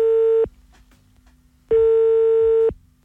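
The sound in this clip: Ringback tone on a telephone call being placed: two steady, mid-pitched electronic tones, the first cut short at the start and the second lasting about a second, with faint line hiss in the gap between them.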